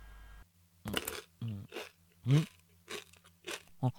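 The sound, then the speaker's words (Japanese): Eating rice porridge (zosui): a run of short, moist chewing and mouth noises, loud bursts separated by brief pauses, with no talk. “わーい、雑炊だ。味薄そうだ。 さっさと食べて、さっさと寝ろ。”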